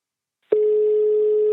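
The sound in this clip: A mobile phone ringing tone plays as a single steady electronic beep, mid-pitched and unwavering. It lasts about one second, starts and stops abruptly, and has silence on both sides.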